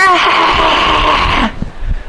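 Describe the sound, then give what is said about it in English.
A voice imitates a woman screaming with one long, loud, high-pitched sustained shriek. It cuts off abruptly and is followed by brief low speech sounds. “So one time I read this verse in a class, and this one woman's liberation advocate started screaming,”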